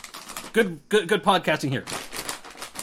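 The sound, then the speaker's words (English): A bag of semi-sweet chocolate chips rustles and rattles in crinkly bursts before and after a short spoken remark. “That is the sound of a bag full of chocolate chips.”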